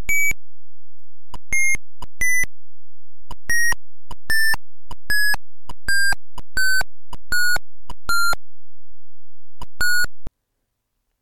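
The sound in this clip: Eleven short, bright electronic beeps from a resistor color-code calculator program on an Atari 8-bit computer. They come in an irregular rhythm with no talk, and each tone sits a little lower in pitch than the one before.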